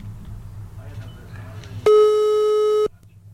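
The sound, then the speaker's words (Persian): A phone line's disconnected tone sounds after a dropped call, one loud, steady electronic tone of fixed pitch lasting about a second, rising abruptly out of low background noise and cutting off just as sharply. “صدا قطع شد. چشم، دوباره میگیرم.”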